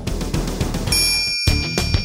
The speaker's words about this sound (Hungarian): Nyomd meg a kis csengőt, hogy ne maradj le egyetlen műsorunkról sem.